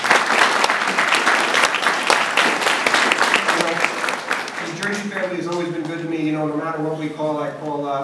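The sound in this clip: An audience applauds to welcome a panel guest from a banquet hall, dense clapping that fills the first five seconds before thinning out as a man begins talking.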